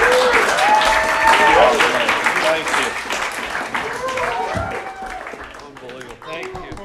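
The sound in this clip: Audience applause at a live stand-up show for a religious group, a steady wash of clapping that slowly tapers, with a man talking over it throughout.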